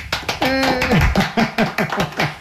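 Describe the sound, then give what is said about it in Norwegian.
A short burst of applause celebrates finishing knitting a sweater. Quick, irregular claps and taps mix with a brief vocal cry early on. “For litt applaus.”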